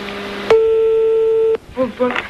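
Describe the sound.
Telephone line tone during a prank call to someone's father, one steady electronic tone lasting about a second, followed by voices talking.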